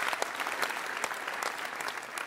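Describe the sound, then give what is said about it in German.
Police officers applaud after a speech, a steady wash of dense clapping that holds at an even level from start to finish. “Die Polizisten verfolgen die Rede konzentriert. Sie klatschen.”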